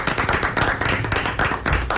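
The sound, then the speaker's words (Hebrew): Dense, steady applause from an audience clapping at a Torah study quiz event, a continuous crackle of many hands that holds at a fairly loud level for about two seconds with no clear pauses. “כולנו אנחנו מחיאות כפיים, אני חושב.”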